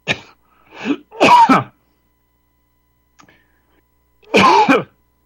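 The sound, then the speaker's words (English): A man coughs and clears his throat in a few short, harsh bursts grouped close together, then falls silent for a couple of seconds before one more loud, rasping cough. “finish that coughing. Let me finish. I just was coughing.”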